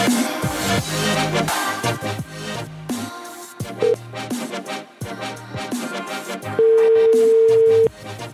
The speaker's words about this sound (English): Why has she got the weird ringtones?